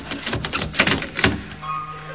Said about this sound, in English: Don't panic, lad. Bolt the door.